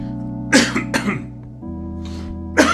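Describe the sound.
A person coughing in a few harsh bursts, two close together, then a quiet gap and one more cough, over a faint steady hum.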